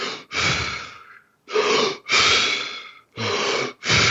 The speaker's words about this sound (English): Wim Hof breathing method, where it's essentially controlled hyperventilation. So it sounds a little like this.